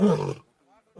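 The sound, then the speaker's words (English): An Asiatic lion roars in a loud, rough burst that quickly fades, followed by a faint low grunt and then the start of another deep call. “And that was the sound of an Asiatic lion.”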